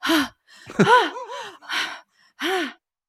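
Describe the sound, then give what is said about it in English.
A voice imitates open-mouth panting with a few breathy, voiced gasps and sighs, separated by short pauses, some carrying a tone that bends up and down. “this is where like she does a lot of like open mouth panting”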